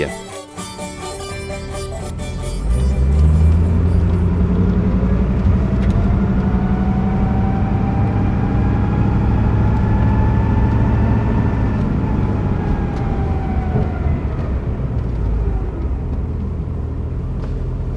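A vehicle engine rumbles steadily as it drives along a road across the Bolivian high plateau at 4,000 metres. After a quieter opening, it settles into a loud, continuous low drone that eases slightly toward the end.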